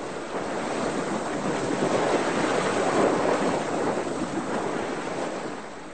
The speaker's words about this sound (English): Here's the wind. Here we go. What a relief. We're shooting through the waves, racing towards the lighthouse.